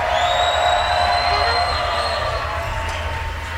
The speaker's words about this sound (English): All right, WWOZ Jazz Tent. They need more energy than that. Come on, let's hear it for